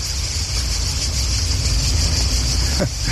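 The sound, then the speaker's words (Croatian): Crickets chirp on a hot summer day near a parking lot. A steady, shrill, high-pitched drone runs unbroken throughout over a constant low rumble. “Krenuo sam do parkinga, čujete zrikavce, oni pjevaju svoju ljetnju serenadu.”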